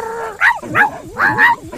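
A dog barks four times in quick succession: short, loud, yipping barks with bright, ringing tone and brief gaps between them.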